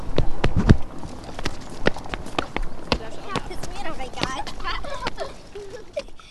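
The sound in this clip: Footsteps walking toward the entrance of an underground car park, many sharp, irregular steps on a hard surface, with voices in the background.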